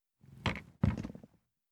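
A door is locked with two soft clunks about half a second apart, the second a little heavier and trailing into a brief rattle, with silence on either side.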